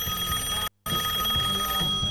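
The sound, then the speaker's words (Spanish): Telephone bell ringing while a live program is on air: a steady, bright ring that breaks off for a brief silent instant and then resumes, with no talk over it. “Me están llamando, espera. ¿Está sonando?”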